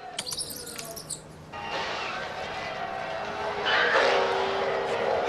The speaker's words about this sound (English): Trip watches replays at the end of his race with Maggie over and over.